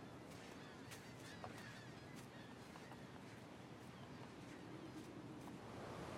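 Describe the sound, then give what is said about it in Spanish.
Big waves breaking on the sea below cliffs, by dunes in early morning light: a steady, loud rushing roar of surf mixed with wind, with no clear gaps between swells. “En el mar hay un gran oleaje.”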